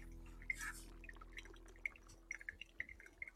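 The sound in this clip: Faint trickling and dripping as 76 °C hot water is poured over ground coffee during the third pour of a pour-over brew, with a brief soft splash early on, then a few light drips.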